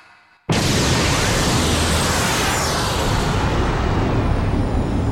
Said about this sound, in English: And then he explodes.